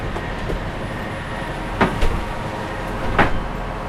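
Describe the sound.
A train rolling along the rails with a steady low rumble, broken by a few sharp clunks and clicks from the carriages.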